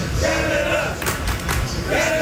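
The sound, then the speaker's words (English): Football fans chant in the streets of downtown Houston ahead of a Canada versus Morocco World Cup round-of-16 match. Many voices chant together in a rhythmic, sustained crowd sound. “Those chants are filling the streets of downtown Houston”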